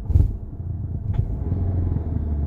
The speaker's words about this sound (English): Car is idling funny.